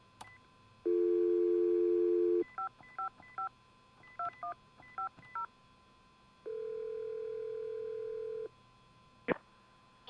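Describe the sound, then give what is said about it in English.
A telephone dial tone hums steadily, then a quick series of touch-tone beeps in short groups as numbers are dialed into a computer phone program, followed by another steady tone and a final click. “You'll hear the dial tone as soon as you open the program on the computer in there. We're recording, so go ahead and dial the numbers into the computer”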